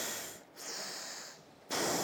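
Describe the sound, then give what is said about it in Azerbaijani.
Nasal breathing during an alternate-nostril technique demonstration, with a hand held against the nose: a few airy, hissing breaths through one nostril, separated by short pauses, the last breath the loudest and sharpest. “Barmaqlarınızı yumursunuz, burnunuz, əlinizi qoyursunuz belə burnunuza və burada nəfəs alırsınız. Burdan buraxırsınız.”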